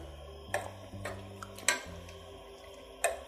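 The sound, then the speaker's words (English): A spoon stirs salt into simmering tomato sauce in a pot. A few distinct metallic clinks and taps against the pot stand out over a low, quiet background. “I'm gonna add a few pinches of salt. Stir it in.”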